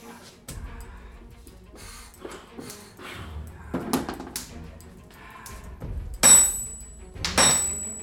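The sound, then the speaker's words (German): Metal is smashed as two sword halves are hammered into small pieces beside a fire. A run of heavy, thudding blows falls at irregular intervals, and the last two are louder and ring with a high metallic tone. “Was machst du denn da? Du zerschlägst ja die beiden Schwerthälften in lauter kleine Stücke!”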